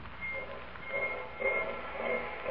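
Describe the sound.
A train locomotive engine rumbles steadily, a broad, continuous mechanical roar that swells gently in loudness, with no voices.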